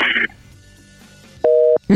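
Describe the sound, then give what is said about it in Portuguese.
A telephone line tone follows a caller hanging up: a single short, loud, steady two-pitch beep lasting about a third of a second. Brief bursts of line noise come before and after it. “Ele desligou.”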